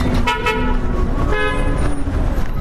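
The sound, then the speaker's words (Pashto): Traffic on a damaged, dusty highway between Kabul and Kandahar, with a steady loud rumble of passing vehicles and car horns tooting in short bursts over it. “دلته ډیری موټران دوری دوری تیریږي.”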